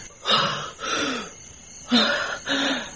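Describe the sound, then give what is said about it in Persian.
Ragged gasps come from a person starting to breathe again after artificial respiration: four rough, breathy intakes fall in two pairs separated by a short pause. “اون حرکت کرد، نفس میکشه.”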